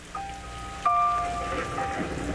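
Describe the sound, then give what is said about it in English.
Steady rain from a thunderstorm hisses across the whole clip, rising a little in loudness partway through, beneath sustained piano-like tones. “Speaking of water, we have a good bit of it floating around us and coming down. If you listen closely, you'll hear the sound of a thunderstorm behind the pianist”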